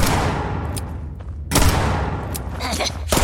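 Video game gunfire inside a mine: dense, noisy bursts of shots and booming impacts over a steady rumbling background, with sharper blasts standing out in the middle and at the end.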